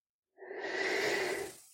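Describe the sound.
A single slow, deep breath in during a relaxation exercise: a soft, airy inhale that swells smoothly and tapers off over about a second, heard alone and fairly faint.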